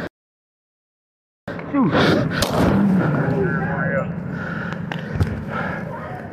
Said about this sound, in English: See, 35 shots fired.